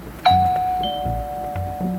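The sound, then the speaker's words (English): A doorbell at a front door rings with one bright chime that sustains and slowly fades over a quiet background. “walked up to the front door, rang the bell, waited, but there was no response”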